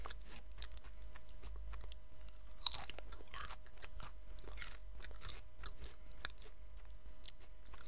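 Crunchy snacks from a bag being chewed: many crisp bites and crunches in an irregular rhythm, faint and steady, with no talking.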